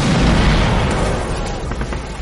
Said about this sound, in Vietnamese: Thằng Tàu ném một quả lựu đạn về phía sau tảng đá,